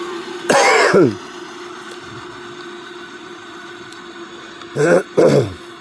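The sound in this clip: A person clears their throat loudly: one long harsh rasp, then after a pause two shorter rasps close together, over a steady low droning hum.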